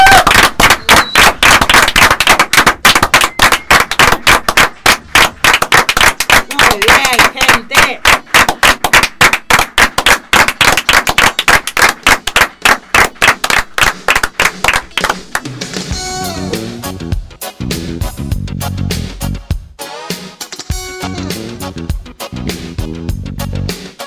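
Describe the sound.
An audience claps in a steady, even rhythm for about fifteen seconds, loud and sharp, before music takes over.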